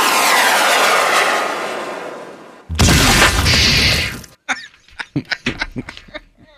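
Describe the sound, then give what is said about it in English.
Bunker buster airstrike explosion in a video game: a sustained roaring rush builds, then a loud, heavy blast lasts over a second before cutting off abruptly. “Should we call in the airstrike? Bunker Buster, baby.”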